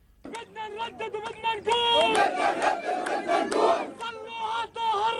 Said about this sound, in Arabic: أطلقت الحناجر هتافات نصرة للرسول قبل أن يردد المسجد الأقصى صدى اسمه الشريف في الأرجاء.